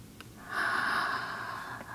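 A deep breath is drawn in through the nose: a faint start swells into a steady, airy nasal rush that holds to the end at low level, with no talking over it.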